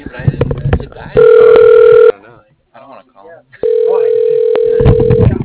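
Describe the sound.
A telephone line tone sounds as a call is dialed out, two steady, loud, unbroken tones separated by a short gap, with voices talking before, between and after them.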